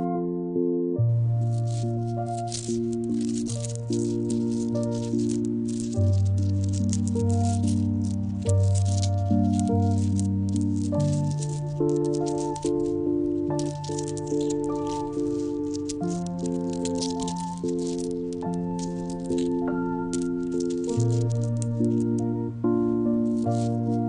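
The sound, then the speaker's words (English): Small pebbles shush and rattle as a finger stirs them in a cupped palm. The soft, grainy rustling goes on steadily throughout over gentle sustained music. “they create a nice texture together, a cool feeling of pebbles in my palm. Stirring them with my finger creates a gentle shushing sound. Something like this.”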